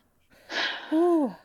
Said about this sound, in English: Deep breath.